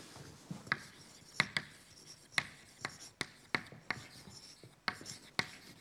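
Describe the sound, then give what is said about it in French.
A lecturer writes out a statistical physics equation, making many sharp, scratchy taps and short strokes in an irregular rhythm. The sound is fairly quiet, with no talk over it. “Donc le lien avec la physique statistique, hein, est le suivant. Donc je l'écris.”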